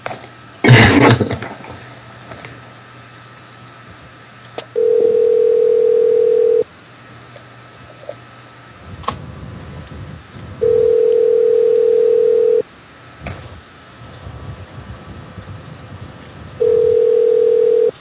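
A telephone ringing tone plays while a call is placed. Three steady mid-pitched tones of about two seconds each are separated by roughly four-second pauses, the last one cut off. A short noisy burst comes near the start.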